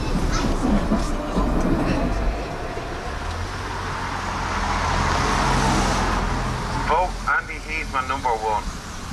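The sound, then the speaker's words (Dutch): Steady rumble and rolling noise of a tram ride toward the Harold's Cross neighbourhood. Low droning motor tones and a broad hiss swell through the middle of the ride, and brief voices surface near the end. “opnieuw de tram in, maar dit keer op weg naar de buurt Harold's Cross.”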